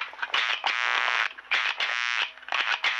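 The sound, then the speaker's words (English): Electric light dimmer buzz picked up by a microphone's magnetic coil: a harsh, loud, harmonic-rich electrical hum that comes in a few sustained bursts separated by brief dips, with no voices. “Now, okay, I'm not able to play the bulb, but I am able to play the dimmer.”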